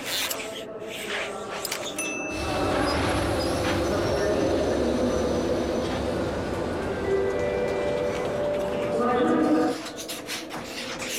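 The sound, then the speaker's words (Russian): Railway station hall with trains standing in the depot and many people walking through it: a steady rumble of rail noise and a murmur of voices, swelling slightly before easing off near the end. “Железнодорожный вокзал. В депо стоят поезда. Множество людей ходят по залу.”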